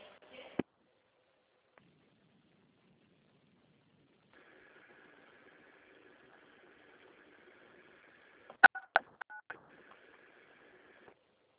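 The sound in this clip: Telephone tones on a call being transferred at the Duque de Caxias municipal chamber's comptroller office: a faint steady tone runs for several seconds, then a quick burst of a few sharp keypad beeps near the end.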